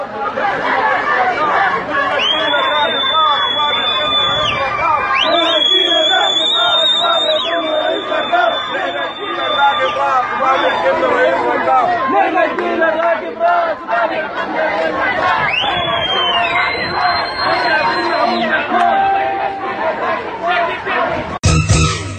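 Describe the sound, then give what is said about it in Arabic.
Protesting workers in Khartoum chant slogans, a dense and loud crowd roar that continues throughout with many voices shouting together. Steady high, whistle-like tones sound above the din several times. “إلى جانب وقفة لتجمع المهندسين من نشيشيبة مطالبين بالرحيل الفوري للبشير ونظامه ومنددين بالطوارئ والاعتقالات. وردد العاملون هتافات”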